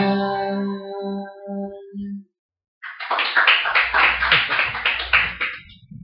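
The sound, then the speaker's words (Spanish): Hands clap in a quick, lively run of many claps lasting about three seconds. A short electronic musical passage of pulsing tones and a brief silence come before it. “Y se me complica aplaudir y abrir la puerta al mismo tiempo y agarrar el micrófono.”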